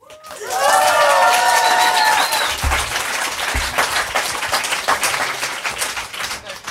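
Applause and cheering from a concert audience in Leuven: loud, dense clapping rises quickly and holds steady, with shrill cheers and whistles early on, then settles into sustained applause.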